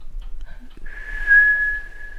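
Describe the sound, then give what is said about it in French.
A steady, clear whistle like the one a bear gives when sensing humans nearby in a forest, a single tone held evenly for over a second, preceded by a couple of faint short chirps over a low hum. “un sifflement quand l'ours veut sentir que il y a les humaines quelque part.”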